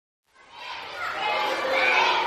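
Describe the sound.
Excited small schoolboys in uniform flood through the corridors of a two-story block at a newly opened primary school in Khartoum, Sudan: a dense, continuous wash of overlapping children's chatter and shouts that swells after a brief silence and stays loud.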